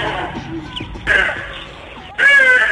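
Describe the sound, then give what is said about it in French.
Hadeda ibises calling in the morning around a house in Melville, South Africa: two loud, harsh cawing calls stand out, each sudden and brassy, over quieter background sound. “Je suis sûr que ce sont les oiseaux qui vous réveillent le matin dans votre maison de Melville”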